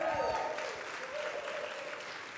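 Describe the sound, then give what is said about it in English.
A church audience applauding the worship team, with dense, steady clapping that holds at an even level throughout. “Man, give it up for the worship team. That was killer.”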